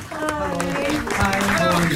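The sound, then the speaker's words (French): Applause in a radio studio as a guest arrives, a loud, steady wash of clapping across the whole stretch, with voices mixed in throughout. “Applaudissements, il arrive dans nos studios.”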